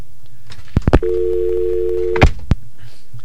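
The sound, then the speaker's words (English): An incoming-call tone sounds on a telephone line: a single steady, even tone holds for just over a second, with a few sharp clicks just before and after it. “Wait a minute, there's an incoming call.”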